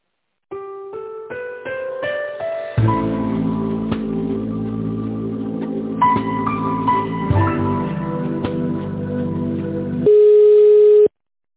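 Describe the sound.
Electronic hold music plays over a telephone line while a call is transferred, with a run of clean synthetic notes rising in steps, then sustained chords under a simple melody, ending on a single loud steady tone, with no talk.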